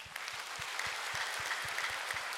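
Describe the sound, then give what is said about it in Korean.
Church audience applauding during worship, a soft but dense wash of clapping with a regular rhythmic pulse beating steadily underneath throughout. “오늘 갈수록 할렐루야 찬양 은혜로운데 한번 박수합니다.”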